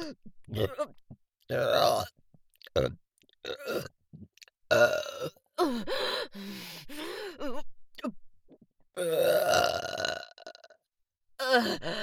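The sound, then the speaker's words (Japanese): Many long, deep burps follow one another in an irregular series, some drawn out with a groaning, croaky tone and brief quiet gaps between them. “やば、一回ゲップしたからどんどん来ちゃいそう。”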